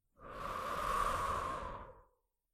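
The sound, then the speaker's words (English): A single long breath during a guided calm breathing exercise, a smooth, airy rush that swells gently, holds for nearly two seconds, then fades away into silence. “Breathe in. Breathe in. And breathe out.”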